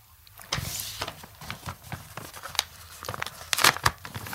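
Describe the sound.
A paper envelope being opened gives off many short crinkling and tearing rustles, crisp paper bursts of uneven strength with no talk over them.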